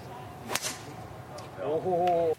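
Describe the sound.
A golf club swing at a charity golf tournament makes a single quick swish, followed moments later by a voice speaking.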